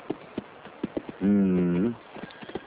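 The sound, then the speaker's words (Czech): A voice imitates a galloping horse's clip-clop with a run of sharp tongue clicks. A drawn-out voiced, whinny-like sound breaks in midway, and then more quick clicks follow. “Tak let's go! Zacváláme!”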